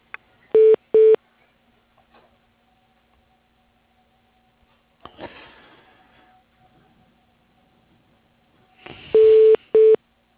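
Telephone dialing tones while paging someone: two short, pure electronic beeps, a brief rustling hiss midway, then two more beeps near the end, with near silence between them.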